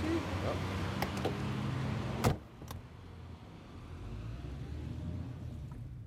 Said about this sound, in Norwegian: Hvorfor kjører du med piggdekk midt i byen?